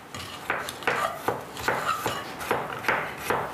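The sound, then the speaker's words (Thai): A knife slices fingerroot (krachai) into smaller pieces, a steady run of many crisp, evenly spaced cuts that land a little under half a second apart. “อันนี้มันจะใหญ่ไปเราก็ซอยอีกครั้งนึงให้เล็กลงนะคะ”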